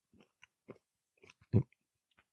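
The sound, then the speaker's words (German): Crunchy chewing of nuts, several short, dry bites and crackles in an irregular pattern with quiet gaps between, one louder crunch standing out. “Im Podcast essen, ich weiß gar nicht, ob man das darf. Gehört das zur Podcast-Etikette, dass man da futtert beim Reden?”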